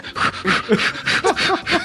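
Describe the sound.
A voice imitates Lamaze breathing with a rapid series of short, rhythmic panting puffs, evenly spaced and fairly loud, each breath a brief breathy burst.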